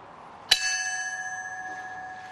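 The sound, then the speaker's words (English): A bell tolls once at a 9/11 anniversary memorial: a sharp metallic strike, then a long, steady ring with bright sustained overtones that slowly fades. “Bells tolled at Ground Zero and at the Pentagon.”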